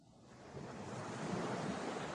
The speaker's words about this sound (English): A storm! This should be fun.